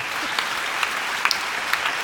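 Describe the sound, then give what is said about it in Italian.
A brief burst of audience applause for a woman, with dense, steady clapping from a crowd at even loudness throughout. “un applauso alla signora”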